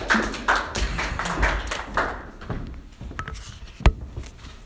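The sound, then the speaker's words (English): Applause from a comedy audience welcoming a comedian to the stage: dense clapping at first, gradually thinning and fading over a few seconds, with one sharp tap standing out near the end. “Right now, give a warm welcome to Chris Arneson!”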